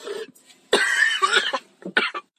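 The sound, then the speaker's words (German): Coughing fit from someone who had to pause because of repeated coughing: several harsh, rough coughs come in uneven bursts, loud and close together, with no speech. “jetzt musste ich nochmal eine kurze Pause machen, weil ich wieder ganz doll angefangen habe zu husten”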